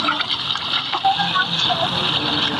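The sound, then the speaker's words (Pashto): River water from the Kunar gushes and splashes as it fills a ten-litre yellow jerrycan held in both hands, a steady, fairly loud pouring wash. “لس کیلوي زیړه بوشکۍ په دواړو لاسونو کلک نیولې او د سین لوبوي ډکوي”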